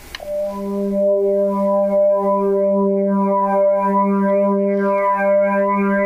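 A Porsche 944 Turbo engine sample turned into a synthesizer-like tone through chorus, flanger and delay effects: one sustained, steady harmonic drone with a shimmering, swirling quality, holding level after a brief opening click.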